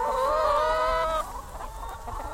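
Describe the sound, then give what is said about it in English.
Hundreds of hens cluck in an enclosed field on a cage-free egg farm, with loud, overlapping harmonic calls for the first half that drop to softer, scattered clucking. “That's the sound of hundreds of hens running around an enclosed field in Lincoln.”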